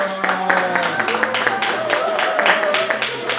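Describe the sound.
An audience at a class claps for students. Scattered, uneven claps sound under a speaking voice throughout.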